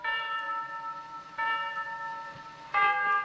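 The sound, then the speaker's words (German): A clock tower glockenspiel chimes eight o'clock. Three resonant bell strikes come about every one and a half seconds, each ringing on with rich, layered overtones and decaying slowly before the next. “Ein großes Ziffernblatt. Der kleine Zeiger rückt vor. Eine weiße Taube fliegt vorbei. Die Figuren des Glockenspiels ziehen vorüber. Es ist 8 Uhr.”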